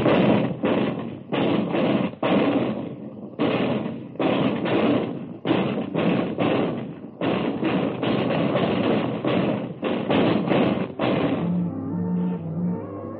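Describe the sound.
An artillery gun crew fires in a long run of heavy, booming bursts, many loud thuds in close succession with brief gaps between groups.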